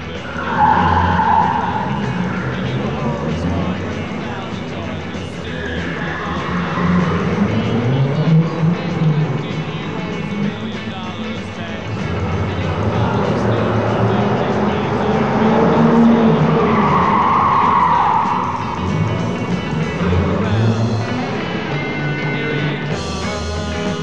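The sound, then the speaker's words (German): A car speeds along with screeching, skidding tyres over a roaring engine, loud and sustained throughout, its squeal wavering up and down in pitch. “Das ist dein Auto. Leg dich hinten auf den Rücksitz. Rauschen wir an ihm jetzt vorbei.”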